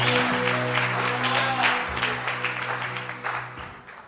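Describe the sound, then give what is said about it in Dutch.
An audience applauds the band at a church service, with clapping spread over several seconds while sustained musical notes hold underneath, gradually fading toward the end. “Won't we give the band a hand? Thanks, guys. Laten we de band een applaus geven.”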